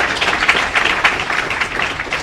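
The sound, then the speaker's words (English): Round of applause from an audience for a conference panel: continuous overlapping hand claps, moderately loud and fairly even, with no talk. “Let's give a round of applause to our panel for the day.”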